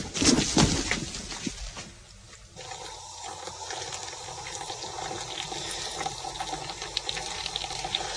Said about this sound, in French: Ah, il prend le café, peut-être. Ça bouille, peut-être.